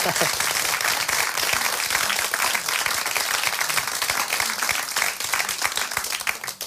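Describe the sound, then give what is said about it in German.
An audience at a 2009 radio award ceremony applauds the prizewinners with loud, sustained clapping. Many sharp individual claps stand out within the steady roar, and faint voices are mixed in underneath. “Dann noch erstmal Applaus für die beiden.”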